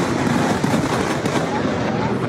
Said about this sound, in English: There are amazing scenes on social media, including this early afternoon lightning strike.